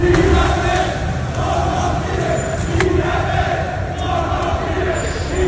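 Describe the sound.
Demonstrators fill Avenida Virgen de Luján in the Los Remedios district of Seville under police containment, their massed voices forming a dense, continuous roar with rhythmic, chant-like swells.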